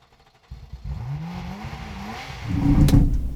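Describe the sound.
A manual car engine revs while gears are changed by an unsteady driver. The engine note climbs in pitch, holds, then surges louder near the end.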